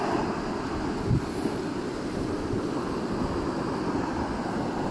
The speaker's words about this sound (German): Und jetzt lasse ich einfach den Wind, das Wasser, weitersprechen.